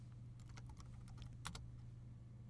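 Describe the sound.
Faint, rapid keystrokes on a computer keyboard as a short line of code is typed, with a quick run of light clicks over a steady low hum.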